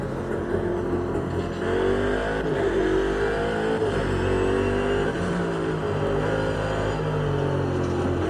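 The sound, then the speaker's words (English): A Bentley car accelerating hard on a race track on cold tyres with its wheels spinning. A loud, continuous engine roar wavers up and down in pitch throughout, with no voices. “Really should let the tyres warm up before I start getting a bit exuberant with the throttle. You can see the wheels spinning up there.”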